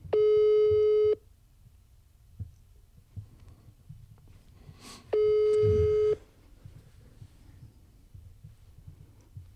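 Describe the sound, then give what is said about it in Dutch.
Ringback tone of an outgoing phone call: two long, steady electronic beeps about four seconds apart, with a low hum and faint rumble in between. “dat blijft overgaan”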